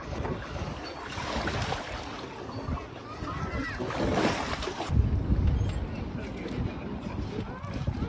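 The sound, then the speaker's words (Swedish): Water splashing as a politician swims in Lake Mälaren in Stockholm during a heatwave, mixed with gusty wind noise, with a voice talking throughout. “Lars Strömgren, Miljöpartiet, gillar att bada. I alla fall om man ska tro hans videor på Instagram. Och vi hörde en här alldeles nyss när han tog sig ett dopp.”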